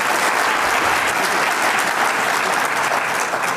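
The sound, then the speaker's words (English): An audience applauds at a panel event with a steady, dense wash of clapping that stays loud and even throughout, with no voices over it. “can we get a quick round of applause for Sue, Cody, and Dale?”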